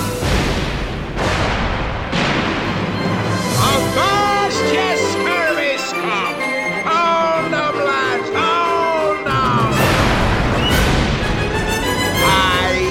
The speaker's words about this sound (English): Strike your colors, you blooming cockroaches! Stand by at your guns! Fire at will!